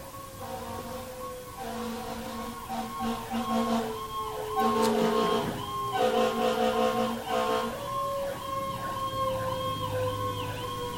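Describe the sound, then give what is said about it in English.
A passing emergency vehicle's siren wails in repeated rising and falling cycles, loud and continuous throughout, the cycles growing quicker and more even toward the end. “Somebody may be going to get oxygen right now that desperately needs it by that emergency vehicle.”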